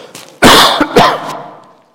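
Throat clearing and coughing from a tickle in the throat: two loud, harsh, rasping bursts close together that fade quickly, with no speech.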